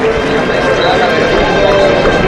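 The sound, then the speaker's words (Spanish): Crowd applause in a bullring for a bullfighter after his opening cape passes, a loud, dense and continuous roar of clapping with a voice talking over it. “Hay aplauso para Miguel Ángel Pereira.”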